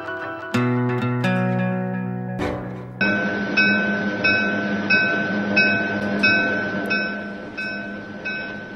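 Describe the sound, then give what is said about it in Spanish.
Train riding on rails, the last train of the night: a brief sustained tonal sound gives way to a steady rolling rumble with a regular, repeating clack of wheels over the rail joints. “Nos encontramos en el último tren.”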